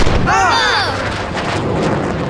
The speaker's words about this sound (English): That was a warning shot. Lower your sails and prepare for boarding.